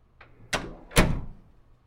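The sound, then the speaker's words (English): A door into a playroom opens with a faint click, then two louder clunking thumps, each trailing off in a short rattle. No voices are heard. “This is the door to my sanctuary, our playroom.”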